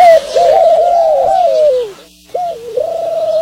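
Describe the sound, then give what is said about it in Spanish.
A dove cooing, played as a mystery sound in a guessing game: a loud, sustained, wavering coo that glides slowly downward, then a brief pause and a second coo. “Paloma, mi gordita. Ay, una paloma aquí. Paloma.”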